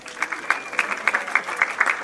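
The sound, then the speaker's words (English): Audience applause at a Los Angeles Jewish film festival, part of a contest for the loudest ovation during thank-yous to organizers. Many sharp, scattered claps form a moderately loud, uneven patter that holds steady throughout, with no talk over it. “Contest, whoever gets the loudest applause.”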